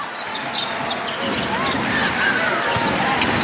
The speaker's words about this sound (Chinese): 其实能够去从现场非常清晰地听到球迷们为球队加油的声音，还在喊防守。